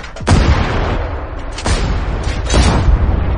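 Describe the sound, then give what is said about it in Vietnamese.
Three booming shotgun blasts are fired downward, about a second apart. Each is a sharp, loud crack with a decaying tail over a continuous rumble. “Bắn 3 phát đạn xuống dưới”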